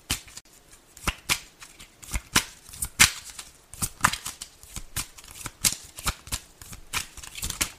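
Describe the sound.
Cards being shuffled and drawn from a deck, with many crisp riffling snaps and soft slides in an irregular rhythm, some bursts louder than others.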